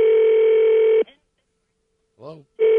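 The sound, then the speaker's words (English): Telephone tones sound while a call is dialed to a Washington, D.C. weather line. A loud, steady tone stops, and a short voice sound follows after a pause. Then the steady tone returns. “Give me a moment to call the official Washington, D.C. snow weather line. All right. Slow dialer.”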